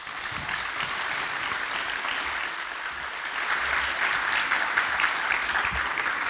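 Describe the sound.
An audience at a writers' and artists' symposium applauds a guest speaker, many hands clapping in a continuous dense patter that grows slightly louder partway through.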